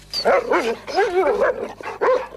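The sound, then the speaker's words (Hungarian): Dogs bark and yelp in a yard in Debrecen where stray dogs were kept, a loud string of high, wavering yelps and barks coming in quick bursts. “Ezen a helyen 28 kutya volt, ebből ennyi van. Jelenleg itt a többit elhelyeztem.”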